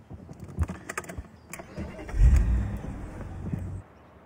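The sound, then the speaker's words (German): A car drives off after a few sharp clicks and rattles. Its engine swells into a low, rumbling drone that holds for over a second and then drops away abruptly. “dann fahre ich mal gemütlich voraus”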